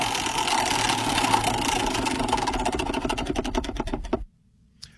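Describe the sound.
A prize wheel spinning: a rapid, even ticking from its clicker that gradually slows into more widely spaced clicks and then stops abruptly, leaving near silence.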